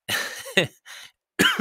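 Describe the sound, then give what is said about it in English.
A person coughs after swallowing the wrong way: a few harsh, raspy bursts in quick succession, then a short pause before a final louder pair of coughs. “just swallowed the wrong way”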